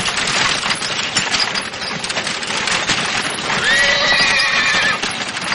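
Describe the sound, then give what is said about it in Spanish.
A horse-drawn carriage loaded with suitcases rolls along a path, hooves clopping steadily beneath a rattling wash of noise, while a horse gives a loud whinny in the latter half. “Un carruaje cargado de maletas se acerca al momento por el mismo deteniéndose al poco junto a ellos.”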